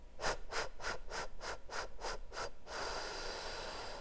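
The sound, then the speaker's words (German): Pursed-lip breathing demonstrated as an asthma-style exercise: eight short, evenly spaced breath puffs in quick rhythm, then one long, steady, hissing exhale through pursed lips, fairly quiet and with no talking. “Und dann erinnert euch sicherlich an dieses Atmen mit der Lippenbremse, also dieses”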